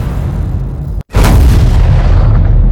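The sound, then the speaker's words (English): Cinematic hit sound effects layered with fire sounds: a loud, dense roaring rumble cuts out briefly. A heavy booming impact then bursts in and trails into a sustained roaring fire texture. “I'm going to add the Boom Library Cinematic Hits. It has some awesome fire sounds. So I'm going to put a couple of banks.”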